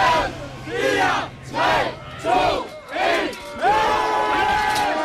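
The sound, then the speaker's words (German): A festival crowd shouts and cheers as the gates to the main grounds open. Their voices rise in a handful of rhythmic, swelling bursts, and the last one is held longer and louder. “Das klingt dann übrigens so, wenn die Tore geöffnet werden.”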